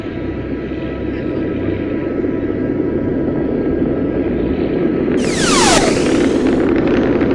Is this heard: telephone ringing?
no